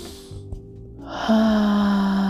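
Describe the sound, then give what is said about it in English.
A slow, deep breath drawn in during a guided breathing exercise: a soft, breathy hiss swells after about a second and is held steadily to the end over a sustained low hum. “Yes, we can get a little deeper on three. 1, 2, 3, let's breathe in.”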